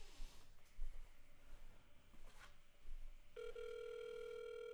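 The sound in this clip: A steady telephone tone sounds on a call being placed to a fast-food restaurant. A few soft handling bumps and rustles come first, then the even electronic tone holds alone to the end.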